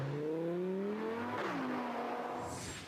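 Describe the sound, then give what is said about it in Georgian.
A small sports car engine roars loudly, its harmonic whine climbing in pitch, dropping sharply midway, then carrying on before easing off toward the end. “მილიონერებს ის მხოლოდ სისწრაფის გამო კი არ მოსწონთ, ასევე მისი უნიკალური ომახიანი ბღუილის გამო უყვართ. ეს პატარა მანქანა ნამდვილი მონსტრივით ხმოის.”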